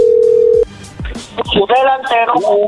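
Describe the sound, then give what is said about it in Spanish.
A steady telephone dial tone holds for about half a second and breaks off into a few clicks as a number is dialed. People then talk over the line. “Cuando le marquemos, contestas tú. Ahí se está marcando.”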